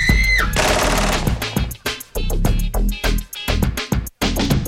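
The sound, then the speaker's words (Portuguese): Loud, rapid bursts of gunfire from a 1988 hip-hop recording. The shots come in dense volleys separated by a few brief gaps. “No beco escuro a história termina, ele aponta a arma e atira na mina.”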